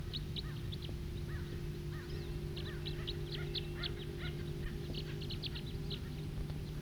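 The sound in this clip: A far-off bird calls loudly, repeating many short, high chirps in quick, uneven bursts over a steady low hum.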